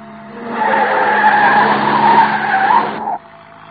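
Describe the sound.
Car tyres screech in a long, loud skid during fast driving. The screech holds steady for about three seconds over engine noise, then cuts off abruptly, leaving a low rumble.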